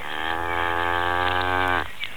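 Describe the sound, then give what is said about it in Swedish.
A cow gives one long, loud, steady lowing call that drops in pitch right at the end, with no talk over it. “Där står en ko, och hon tittar dumt.”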